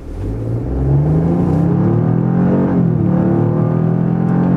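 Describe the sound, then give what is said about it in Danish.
Engine of a Toyota GR Yaris, all-wheel drive with Torsen differentials front and rear, driving on a Danish country road near freezing: a steady loud drone whose pitch climbs, dips briefly, then climbs again. “hvordan kører så den Toyota GR Yaris. På en almindelig dansk landevej”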